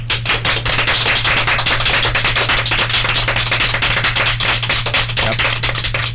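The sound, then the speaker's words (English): Round of applause from an audience at a performance venue: dense, rapid clapping that holds steady throughout, with a low electrical hum running underneath. “they give him a round of applause. So, for Charlie Evers,”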